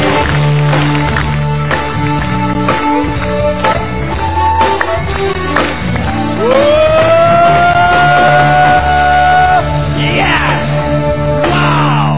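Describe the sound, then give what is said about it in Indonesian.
Audience cheering, yelling and whooping to welcome a speaker at a seminar: a loud, continuous crowd roar with rising whoops in the middle, sustained throughout. “Tepuk tangan yang meriah dulu Bapak Ibu. Dua kali lebih meriah. Mari kita sambut Mr. Iwan.”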